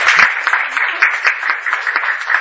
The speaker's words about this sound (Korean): 박수 한번 쳐줍시다.